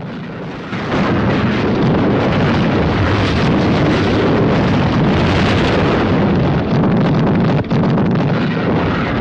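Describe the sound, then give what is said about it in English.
Naval guns on a warship firing a return salvo while artillery shells the ship. The sound is a loud, dense, unbroken roar of blasts and rumble, with one brief dip near the end. “As the artillery guns continue to shell the ship, the Amethyst unleashes a salvo of return fire.”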